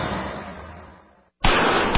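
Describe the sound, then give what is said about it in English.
Booming report of a .44 Magnum pistol: a loud blast tail decays into brief silence, then another abrupt, sharp, powerful shot bursts in and rings out loudly. “That's the sound of a .44 Magnum and Traumamax.”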